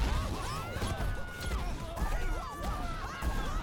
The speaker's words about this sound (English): Because I need to run a diagnostic test on all of the castle's defenses. This should help. So I'm just going to shoot at you. Here we go. Run.